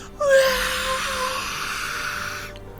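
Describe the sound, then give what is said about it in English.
A ghostly wail comes from spectral faces inside magical crystals in a fantasy scene. It is a single long, high, breathy moan that wavers slightly and holds for about two seconds before cutting off. “And as you start to get closer and closer, you see these ghostly faces inside of these crystals. And then all of you at once hear this wail.”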